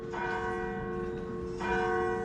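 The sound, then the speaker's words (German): Church bells ringing out across England to mark a monarch's death; bright, sustained overlapping tones that swell with one fresh strike at the start and another near the end, ringing steadily with no voices. “Dann werden überall im Land die Kirchenglocken geläutet.”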